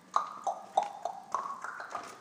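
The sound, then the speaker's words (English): Footsteps of a man walking on wood paneling, a quick, even series of hollow, resonant knocks. About eight steps fall in just over two seconds at a steady pace, each with a slightly ringing tone. “This is the sound of the man walking on wood paneling, I think.”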